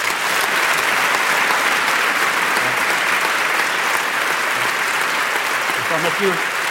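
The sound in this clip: Audience applause welcomes a neurologist at a public conference on memory. Dense, steady clapping from a large crowd fills the whole stretch at an even loudness.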